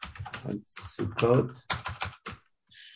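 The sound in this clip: Computer keyboard typing as a message is entered into a chat, quick light key clicks under a person talking.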